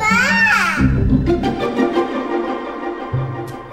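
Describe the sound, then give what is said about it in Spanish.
A baby crying: a loud, wavering high-pitched wail lasting under a second, then quickly giving way to lower sounds. “Un llanto en las ondas.”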